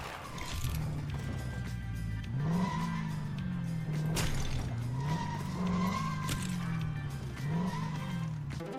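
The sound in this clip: Lego vehicle engines rev and skid in a video game: a steady, buzzing engine tone rises in pitch again and again as it accelerates, with brief tire-squeal skids throughout and no talk.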